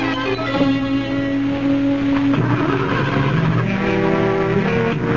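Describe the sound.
A car engine fails to start, giving a continuous, loud, whining drone whose tone shifts in pitch several times without catching.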